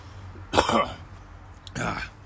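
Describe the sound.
Two coughs from a person who has just breathed in a bug, each a short harsh burst. The first is sharper with a brief rough tail, and the second follows about a second later.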